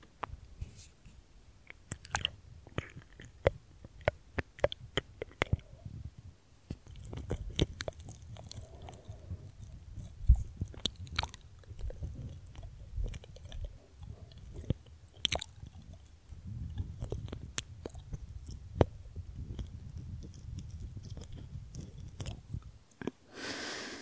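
Ear licking: soft, wet, squishy mouth sounds with scattered sharp clicks, continuous and faint, with no talk.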